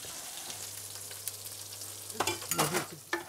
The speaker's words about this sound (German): Braten wir nochmal an.